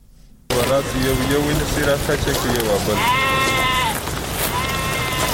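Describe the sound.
Sheep bleating in Pishin, kept for slaughter to make traditional dried meat. Several wavering, nasal bleats sound over a steady rough background, including two long, clear calls toward the end.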